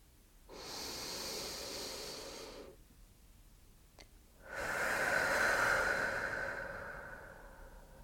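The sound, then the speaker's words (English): Deep breathing in and out: a long, airy inhale is followed by a pause and a faint click, then a longer, stronger hissing exhale that slowly tapers away. No one speaks. “for this next breath, so that when you breathe in, your belly moves outwards. And when you breathe out, you have a deeper release.”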